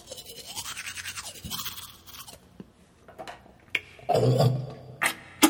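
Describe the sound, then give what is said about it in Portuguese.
Teeth being brushed with a toothbrush: rhythmic scrubbing strokes repeat steadily for about two seconds, then give way to scattered clatter and a few louder knocks, with no talk. “Tô escovando o dente, tá? Só um instantinho.”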